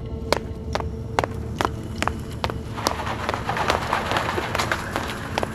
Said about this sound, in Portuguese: Passos apressados dão a sensação de urgência.